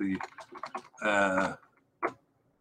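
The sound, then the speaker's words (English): Typing on a computer keyboard while entering match scores: a quick run of light key clicks, then a voice briefly, then a single sharp tap. “into the visual that we have for our YouTube listeners, and I have been typing them into the wrong document, I confess.”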